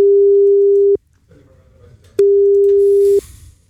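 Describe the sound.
Ringback tone while calling a German mobile phone: two loud, steady mid-pitched beeps of about a second each, separated by a pause that holds a faint background murmur.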